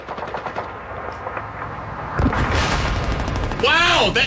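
World War II battle sound effect of machine-gun fire, rapid dense bursts of shots that swell louder partway through and stay loud to the end.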